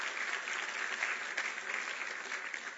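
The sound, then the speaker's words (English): Church audience applauding to welcome back a member who had been unwell, a soft, even patter of many hands that stays steady and fairly faint throughout. “Let's give her a welcoming hand.”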